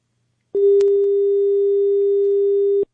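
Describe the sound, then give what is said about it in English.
A steady telephone tone after a dropped call, one unbroken mid-pitched hum lasting over two seconds, preceded by a faint click as the line cuts, with no voices. “Sorry that we lost that call, and I would love to encourage you to call back.”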